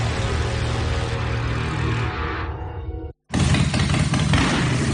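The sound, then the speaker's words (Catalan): A Harley-Davidson motorcycle engine revs as a loud, dense, rumbling roar. It thins slightly, cuts out for a split second, then returns at full strength. “Uf, com sona, eh? Quina música. És una Harley, el mite, la llegenda.”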